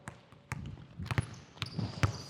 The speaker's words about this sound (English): Players, same thing, you got two dribbles to get a gold medal. Guys, we can reposition ourselves every 5-10 seconds or so, okay? Go, first player to three layups wins, go.